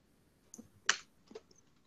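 Typing on a computer keyboard: a few light, sharp keystroke clicks at irregular spacing, one slightly louder than the others, quiet overall with no voices.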